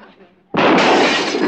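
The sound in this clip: A gunshot shatters a full bottle: after a quiet lead-in comes a single sudden, loud crash of breaking glass that rings on harshly for about a second.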